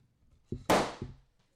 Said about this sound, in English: Why would you hand me a loaded gun? Locked and loaded means locked and loaded, brother.